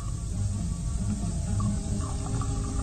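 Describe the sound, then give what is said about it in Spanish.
Liquor pours into a glass as a steady, soft trickling stream that runs unbroken for the whole stretch. “El ruido cristalino de licor llenando la copa lo hace reaccionar”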